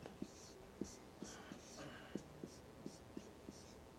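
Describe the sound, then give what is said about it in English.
Faint scratching of writing by hand, with many short strokes and small tapping clicks in an uneven rhythm, quiet and alone. “I'll try to write this neatly.”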